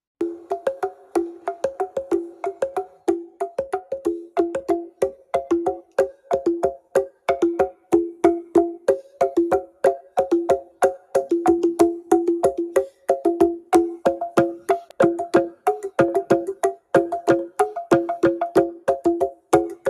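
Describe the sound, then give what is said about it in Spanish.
A teponastli, a pre-Hispanic slit drum of the Pipil people, is struck in a brisk, steady rhythm. Many hollow, pitched knocks alternate between two tones throughout, with no voices. “siendo muy conocido uno llamado teponastli, una especie de tambor de hendidura que suena así.”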